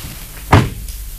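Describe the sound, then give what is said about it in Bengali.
A door being opened: a single dull, fairly loud thud, followed by a much fainter knock, over a steady low background hum. “দরজা খুললেই চিনতে পারবে। কি হলো, খোলো।”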